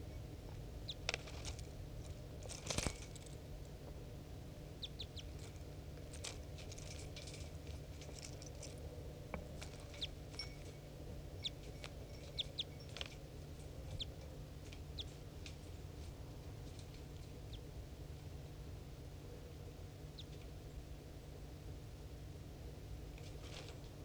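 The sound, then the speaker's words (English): A decoy bird call and a wild bird calling: scattered short, sharp chirping notes at irregular intervals over a steady low hum. “Decoy? Decoy? Decoy and wild bird.”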